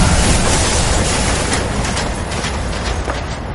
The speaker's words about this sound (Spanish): Café y Ang Sunamun van en un vagón.